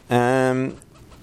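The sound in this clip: A parrot gives one loud, drawn-out harmonic squawk lasting about half a second, with about ten parrots gathered around. A quieter background follows the call.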